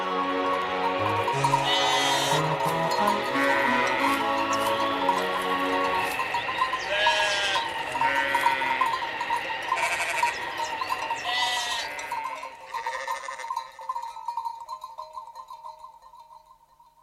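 Sheep bleating in a few wavering, nasal calls over fading music, the bleats spaced apart before the sound tapers off to near silence.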